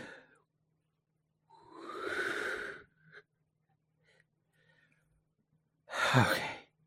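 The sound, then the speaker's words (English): Slow breathing during a calming breath exercise: two long, soft, breathy exhales separated by a quiet pause, with faint small breath sounds between them and no speech. “In for four. Hold for seven. Exhale for eight.”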